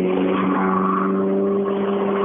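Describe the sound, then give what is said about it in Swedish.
Ford Escort rally cars roar with engines revving in a sustained, buzzing drone of steady harmonic tones, loud and continuous, with no talk. “de här heter ju inget annat än Mats Jonsson-eskorter, de här bilarna.”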